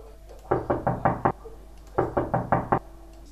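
Knocking on a room door, in two groups of five even, firm raps separated by a short pause.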